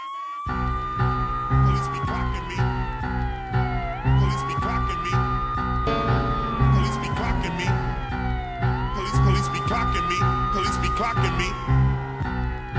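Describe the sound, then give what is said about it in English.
A police siren wails inside a hip-hop track, its tone sweeping slowly down and back up in a repeating cycle over a heavy, thumping beat that stays steady beneath it. “Whoop, whoop. That's the sound of the police.”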